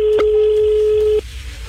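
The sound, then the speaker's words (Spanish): A telephone tone as a call is placed: one steady, mid-pitched held beep lasting just over a second that cuts off abruptly, leaving faint low background noise. “Vamos a llamar, estamos llamando.”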